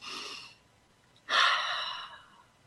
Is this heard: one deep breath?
yes